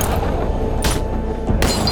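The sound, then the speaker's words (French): Gunfire from police trading shots with armed robbers outside a casino: two loud, sharp blasts about a second apart over dense, rumbling noise. “Les flics ripostent. Un vrai déluge.”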